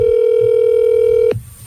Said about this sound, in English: If it goes straight to voicemail, you have to call him back. All right, calling.